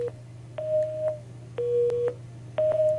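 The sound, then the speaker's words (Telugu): Telephone busy tone after a caller's line was cut off: a steady mid-pitched beep repeating in even on-off bursts, about three full ones, over a constant low hum, with no voices. “మరి నీ phone line అయితే cut అయినట్టుంది”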